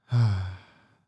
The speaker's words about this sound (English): Let's take in a deep breath in through your nose and out through your mouth.